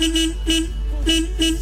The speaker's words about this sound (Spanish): Y la respuesta con un bocinazo.